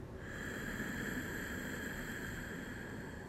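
A slow, steady breath drawn in through the nose during a guided breathing exercise: a faint, even airy hiss lasting a few seconds, with a quiet steady hum behind it.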